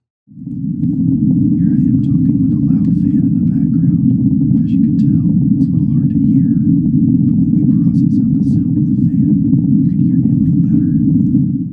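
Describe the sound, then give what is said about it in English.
A loud fan runs steadily beneath a person talking in a studio, giving a constant low droning hum that partly masks the voice throughout. “Here I am talking with a loud fan in the background. As you can tell, it's a little hard to hear.”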